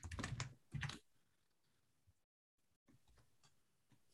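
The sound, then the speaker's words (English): Typing on a computer keyboard: dense bursts of rapid clicks at the start, then a quiet stretch and a run of fainter, scattered taps. “So hold on, I'm going to type this up.”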